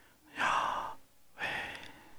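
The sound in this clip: A voice imitates the aspirated divine name with breath alone: two airy, unvoiced breaths, each roughly half a second long, separated by a short pause, the first slightly fuller than the second.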